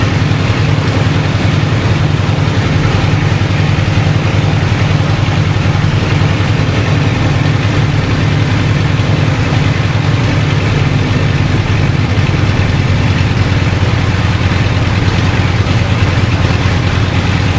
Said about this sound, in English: Now it's idling at 1200 revs. I'm just going to bring it up just to make it a little bit smoother.